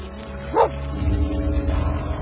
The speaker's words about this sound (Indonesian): Suara anjing yang tadi aku dengar sekarang makin dekat jaraknya.